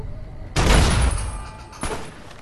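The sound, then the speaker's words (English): Gunfire from the Fallout video game comes as two loud, sharp blasts. The first is a heavy burst with a long, fading rumble, and a shorter report follows about a second later. No one speaks. “nice shooting. Blew his head right off.”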